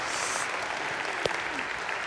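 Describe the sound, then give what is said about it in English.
A church audience applauds, a dense and steady wash of many hands clapping at even loudness throughout. “Why don't we give everybody a hand? Welcome our church family at every campus.”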